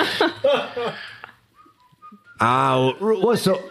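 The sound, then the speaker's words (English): A person whistling and humming a short tin whistle-style tune, a few bright sustained notes that break between bursts of speech. “there's like a tin whistle. This is like the minute you start opening up the text message, a tin whistle starts playing in the background.”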